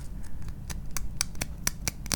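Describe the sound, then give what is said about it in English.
Sanding the rough cut end of a piece of bamboo with an emery board: many short, dry rasping strokes in an uneven rhythm, moderately loud over a low background rumble. “I'm just going to take some of these slivers off, sand this down a little bit with an emery board”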